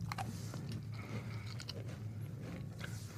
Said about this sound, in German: Und was sagst du, der sonst keine Kekse isst? Also ich, äh, ich muss erstmal sagen, sie schmecken nicht glutenfrei.